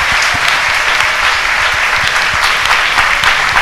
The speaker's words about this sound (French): Acclamons le Seigneur. Let's clap for the Lord.